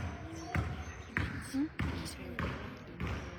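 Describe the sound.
A basketball dribbled down the court during a game: five firm, evenly spaced bounces with a hollow thump, with a person talking between and over them.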